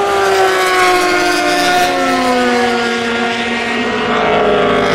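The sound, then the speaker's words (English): Engine drone of racing motor cars going past, among them Toyotas, heard as loud, continuous harmonic tones that glide slowly lower, with no talk over them. “3.5 minutes of just the pure sound of the world's greatest motor cars going past without saying a word”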